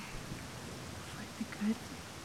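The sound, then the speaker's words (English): Rain falls as a faint, steady hiss with no clear individual drops, low and continuous throughout. “Man, I wish the rain would let up just a little bit.”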